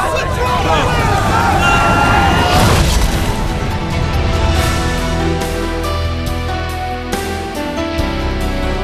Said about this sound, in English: Colonel Stewart, have missiles launched on my command. Fire!